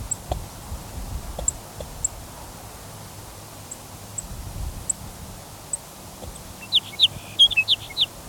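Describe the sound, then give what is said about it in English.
Sparse, thin chip notes from a sage sparrow, probably a female, sound as faint high ticks spaced across steady low background noise, then a quicker cluster of louder chips near the end. “Another sage sparrow chipping, probably a female.”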